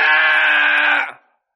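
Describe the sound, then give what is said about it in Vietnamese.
A scream from an old Taoist priest dashing out through the gate of a mourning hall rings out as one loud, sustained, high-pitched cry lasting about a second, then tails off and fades into silence. “Chỉ còn nghe thấy tiếng hét kia vang vọng lại.”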